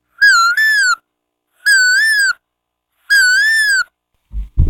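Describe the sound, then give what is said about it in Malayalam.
A human voice imitates an Asian koel's call as a school student's mimicry item: three loud, clear, hooting whistled calls with rich overtones, the first split into two parts, then a brief low thump at the end. “ഇനി കുയിൽ.”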